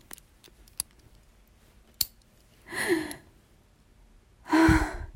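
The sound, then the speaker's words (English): Sharp metallic clicks of a collar's lock being locked: a few crisp snaps spaced apart, then two breathy gasps or sighs. “That sound, the click of the lock. Oh my God, it's locked on me.”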